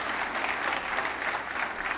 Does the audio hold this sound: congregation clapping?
yes